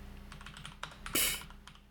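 Quiet typing on a computer keyboard during an online game chat, a run of light key clicks with one sharper, louder strike partway through.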